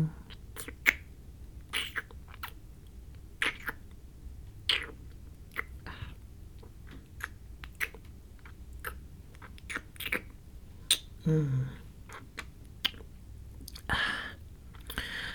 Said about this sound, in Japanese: じゃあいっぱい舐めてあげるね。まずは右耳ちゃんから。